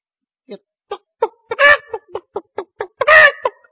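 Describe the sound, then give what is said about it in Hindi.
A man imitates a hen calling her chicks with quick, rhythmic clucks. Short clicky clucks are broken twice by longer, louder, raspy squawks, in a steady pattern of about ten sounds. “उसके आगे कुछ गए तो मुर्गे के बच्चे थे, और मुर्गी भी थी, तो मैंने फिर आवाज निकाली इस तरह,”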